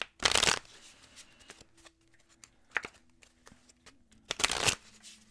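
Oracle cards are shuffled during a card reading, with a few loud riffling bursts separated by quieter scattered taps and rustles of the deck.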